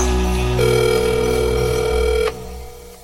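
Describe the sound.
A telephone line tone from a phone call: one steady, unbroken tone that holds for nearly two seconds over a low background, then cuts off sharply.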